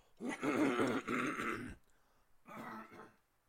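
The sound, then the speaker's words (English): Throat clearing to loosen phlegm by someone with damaged vocal cords: a long, rough, gravelly burst, then a pause and a shorter, softer rasp. “Give me a second. I have phlegm again.”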